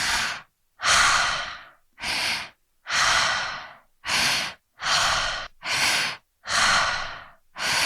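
Rhythmic mouth breathing in a breathwork exercise, with active inhales and passive exhales in an ongoing cycle: many loud, airy breaths separated by brief gaps, heard alone without talk.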